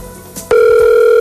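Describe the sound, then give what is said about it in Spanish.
A telephone line tone as a call is transferred and connects: after a moment of low line noise, a loud, steady tone begins abruptly and holds to the end. “No timbre, ¿qué quiere decir? Que debemos volver a llamar, ¿no? No entró la llamada. Claro. Sí. Llamada transferida a Claro. Ahí está. Ahí va.”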